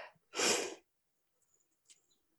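A single sneeze bursts out loudly and briefly, followed by a few faint breathy sounds and near silence.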